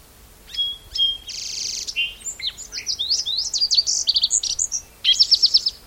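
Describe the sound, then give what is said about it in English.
A Song Sparrow sings a bright, high-pitched song. It opens with a few separate notes, moves into a buzzy note and varied quick phrases, and ends in a fast, even trill. “Song Sparrow in the background.”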